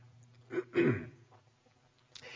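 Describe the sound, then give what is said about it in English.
A person coughs from an irritated throat in two rough, throaty bursts in quick succession, the second stronger and longer. Both are quiet, and a brief hiss follows near the end. “Someone just pray that cough goes away, because this is right there at the back of my throat.”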